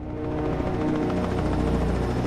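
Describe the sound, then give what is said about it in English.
A helicopter comes in to land on the roof of a tower block in Hong Kong. Its rotors make a loud, dense, steady thudding roar that stays constant throughout. “A helicopter lands on the roof of a tower block in Hong Kong.”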